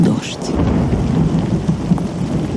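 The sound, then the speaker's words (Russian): Heavy rain pours down steadily during a thunderstorm, with a deep rumble of thunder rolling underneath the constant hiss of falling water. “дождь. Дождь. Я люблю дождь. Работаю только в такую погоду.”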